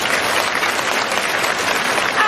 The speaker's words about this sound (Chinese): 让我们再一次用最热烈的掌声感恩大慈大悲卢军宏台长